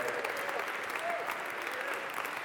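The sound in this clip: A church audience applauds in dense, continuous clapping that stays steady and even for the whole short stretch, with no pauses or swells.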